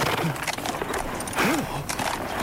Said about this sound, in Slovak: Žrebec klesol na jedno koleno.